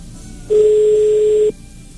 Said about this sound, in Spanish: Ahí está dándonos tono.